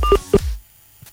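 Telephone keypad tones as a number is dialed for a call: two short electronic beeps in quick succession, followed by near silence.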